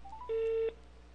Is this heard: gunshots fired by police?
no